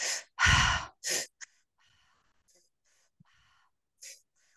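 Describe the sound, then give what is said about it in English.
Deep breathwork breaths: two strong, rushing breath sounds follow each other quickly, then softer, fainter breath noise trails off before one more short breath near the end. “So this one is it's a double inhale and an exhale, right? So you're going to inhale through the belly, inhale through the heart space, exhale out.”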